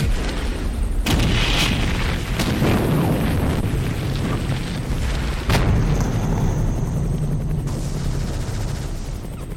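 Bombing explosions, with napalm, striking a tree line in a war zone: a dense, loud, continuous rumbling roar broken by a few sharp blast cracks, without letup throughout.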